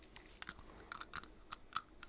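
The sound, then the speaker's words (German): Teeth biting into a hard pen give faint, sharp crunching clicks, a few uneven bites in quick succession. “Sie haben in den Stift gebissen.”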